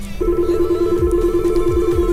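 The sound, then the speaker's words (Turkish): A telephone rings in a radio studio: a steady, mid-pitched electronic tone begins just after the start and holds unbroken to the end, with no voices. “stüdyoya bir telefon gelmişken de ne güzel”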